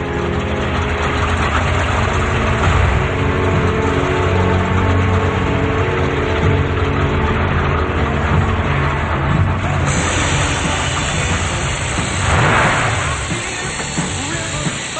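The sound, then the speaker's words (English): A car's engine runs steadily as it drives through a warehouse and deeper into the building, past crates, metal barrels, scrap metal and idle factory machinery. It makes a continuous loud rumble that swells briefly near the end, with no voices. “He drives past crates, metal barrels, and scrap metal, then through another door and deeper into the building past idle factory machinery.”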